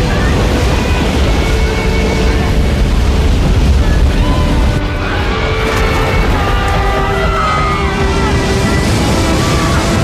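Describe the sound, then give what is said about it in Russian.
Water floods a grand staircase and hall in a continuous, heavy roaring rush with a deep rumble underneath, loud and sustained with no breaks. “Парадная лестница и холл заполняются водой.”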